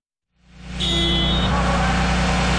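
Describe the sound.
Heavy truck engine starting up during a heavy-vehicle repair skills competition: a loud starter crank builds quickly into a steady, deep rumbling idle with broad mechanical noise, holding evenly to the end.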